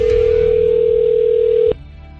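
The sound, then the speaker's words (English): A steady telephone dial tone sounds while calling a radio station. The single loud mid-pitched tone holds evenly, then cuts off abruptly with a click, leaving a quieter low background. “Okay, let me make sure I get this number right. Dialing here, the connect.”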